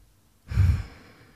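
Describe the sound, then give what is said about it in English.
A single collective breath drawn by a worship audience breathing together: a soft, airy rush that swells suddenly, holds briefly and then fades into a quiet hiss. “let us breathe together”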